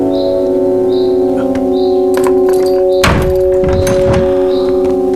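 A heavy door is opened at a guarded cell holding a prisoner, giving a few dull thunks and clanks over a steady sustained tonal background.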